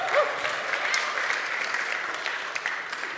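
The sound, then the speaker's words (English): Audience applause welcoming a visiting doctor as a guest, a dense, steady wash of clapping from many hands that holds evenly for about three seconds with no talk over it. “So why don't we put our hands together? A very warm welcome.”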